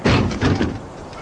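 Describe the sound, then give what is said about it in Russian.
A door is shut and locked, giving a few dull, loud thuds and knocks in quick succession that fade into a quieter rattle. “Сейчас на замок закрыть.”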